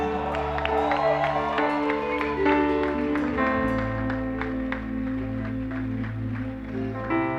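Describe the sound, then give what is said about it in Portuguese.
Church audience applauding leaders as they arrive, crisp claps standing out over loud sustained keyboard or organ music that shifts chords partway through, with steady, continuous energy throughout. “Vamos aplaudir ao Senhor que estão chegando aqui.”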